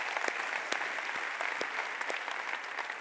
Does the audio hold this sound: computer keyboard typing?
no